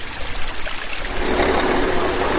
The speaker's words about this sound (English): We are near the banks of the Clark Fork River, just outside of Missoula, Montana.